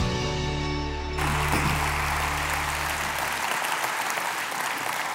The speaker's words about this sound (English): I want you to put your hands together and welcome my friend, Dr. Fred Lowry, to the stage.